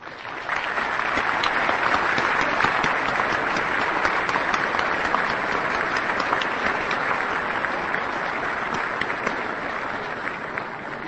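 The United Nations General Assembly applauds to adopt a resolution by acclamation confirming a new Secretary-General. Dense, sustained clapping starts almost at once, holds loud and even for about ten seconds, then eases slightly.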